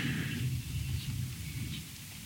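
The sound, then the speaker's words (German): Thunder rumbles as a thunderstorm passes overhead, a steady low rolling rumble that eases slightly toward the end. “Also das Gewitter ist jetzt über uns rübergezogen schon.”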